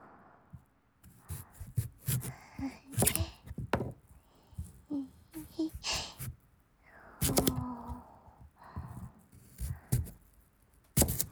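A kitchen knife cuts a peeled carrot into thin slices. Many crisp, quiet chopping strikes come at an uneven pace with small clicks between them.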